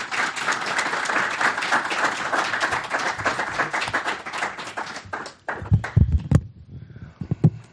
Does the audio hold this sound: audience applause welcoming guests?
yes

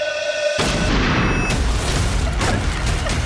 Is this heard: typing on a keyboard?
no

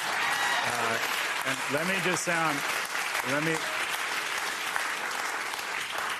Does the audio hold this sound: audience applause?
yes

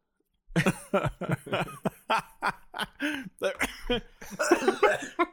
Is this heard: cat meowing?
no

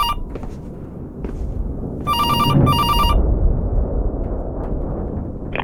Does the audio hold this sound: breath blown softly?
no

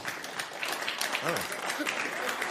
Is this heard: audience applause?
yes

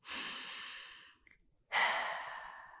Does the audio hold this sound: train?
no

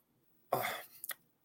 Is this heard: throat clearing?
yes

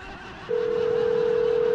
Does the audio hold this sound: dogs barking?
no

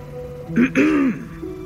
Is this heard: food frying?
no

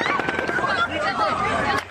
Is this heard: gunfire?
yes

